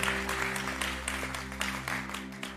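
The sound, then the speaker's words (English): A church audience applauds, with many hands clapping in a dense, steady wash of sound that holds at a moderate level for the whole stretch. “Church, can we put our hands together and make some noise and welcome those born into God's family today?”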